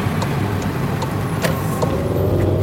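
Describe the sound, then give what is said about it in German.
Steady low engine and road rumble from a car driving out of the centre of Graz, an even, constant drone with faint scattered clicks. “Na, wir fahren jetzt aus dem Zentrum, aus Graz”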